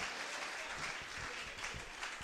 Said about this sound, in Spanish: Y si ese aplauso va a ser para él, ¿qué le parece si se lo damos con todo el corazón?